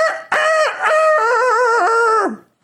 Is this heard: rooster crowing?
yes